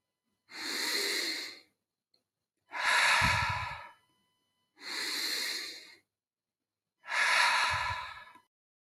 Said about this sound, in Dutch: Dus we ademen in via onze neus. En we ademen uit via onze mond. Zonder pauze.